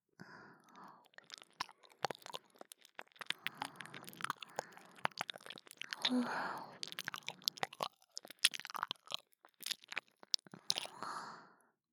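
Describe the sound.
Ear cleaning close to the microphone produces quiet, irregular bursts of crackling, scratchy rubs and taps, broken by a couple of soft breathy passages.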